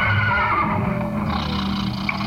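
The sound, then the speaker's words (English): A horse neighs on an old record, giving a harsh, drawn-out whinnying cry over a noisy, hissy background. “Oh, yes, and this is my horse Trigger.”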